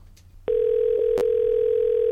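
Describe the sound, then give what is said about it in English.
Telephone ring tone on an outgoing call to a ranch business: after a low murmur, a click brings in a steady single-pitch tone that holds unbroken to the end. “Pick up, Mona. Pick up. Okay, I guess all the girls are busy”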